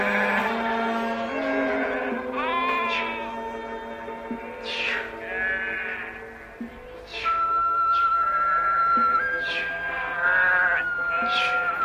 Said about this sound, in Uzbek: Sulaymon ota ko'p yillardan beri qor ketib yerdan maysa unishi bilan bir to'da qo'ylarni har kuni ertalab yaylovga haydab ketib, oqshom haydab keladi.